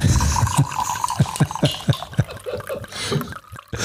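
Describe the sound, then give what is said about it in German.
A drink is poured from a bottle as it is emptied, producing a quick, rhythmic series of hollow glugs and splashes at a moderate level that thin out toward the end. “Nachgeschenkt. Komm, wir machen die Flasche leer.”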